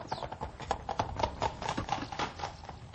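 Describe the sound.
Hooves of a horse pulling a landau carriage clip-clop in a steady, even rhythm, with many sharp hoofbeats running through the whole clip and no talk.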